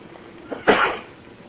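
A single short sneeze bursts out of near silence, fairly faint and sharp, with a small intake of breath just before it.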